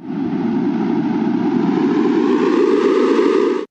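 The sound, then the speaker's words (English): A synthesized sonification of ocean carbon dioxide outgassing data: a steady, rushing noise-like drone that grows brighter and a little louder over a few seconds, then cuts off abruptly. “The more gas that is released into the air, the more the sound will become louder and brighter like this.”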